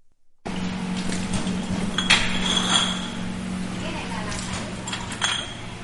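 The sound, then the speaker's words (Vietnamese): Glass rice liquor bottles clink as they are labeled at a private factory in Ben Tre province, Vietnam, with scattered sharp clinks over a steady low hum. “Hàng trăm chai rượu đế đang được dán nhãn tại nhà máy tư nhân Phú Lễ ở tỉnh Bến Tre.”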